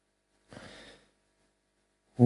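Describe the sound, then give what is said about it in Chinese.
A single deep inhalation, a soft breathy intake about half a second long, followed by silence and then a voice starting at the very end. “深深的吸气，”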